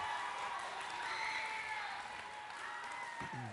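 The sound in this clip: Sustained audience applause greets a speaker taking the stage at an Element halftime gathering, a dense, steady wash of clapping that holds at an even loudness from start to finish with no clear breaks.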